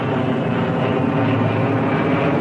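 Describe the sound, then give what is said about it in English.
A twin-engine propeller plane with ski-like runners on its wheels banks over snowy tundra on approach. Its engines give a steady, loud, unbroken drone with no voices. “The twin-engine plane banks around, preparing its approach.”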